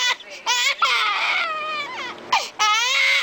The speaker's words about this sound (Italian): Il pianto di ciascun bambino è unico.